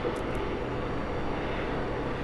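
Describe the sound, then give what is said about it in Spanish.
A police helicopter circling over Madrid during a general strike makes a constant broad whooshing drone that stays at an even loudness for the whole clip, with no talk. “Escuchamos de fondo esas hélices del helicóptero que recorre Madrid para vigilar y para impresionar un poco.”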